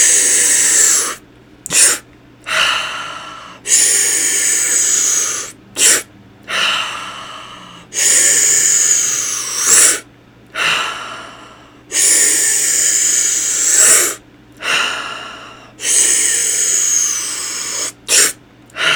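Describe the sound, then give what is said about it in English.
Many forceful breaths exhaled out through the mouth during guided breathwork, each a loud, breathy rush of air in a steady repeating rhythm, with brief quiet pauses between them. “Let's start with an exhale. Everything out through the mouth in 3, 2, 1. And again, just follow along with my breath.”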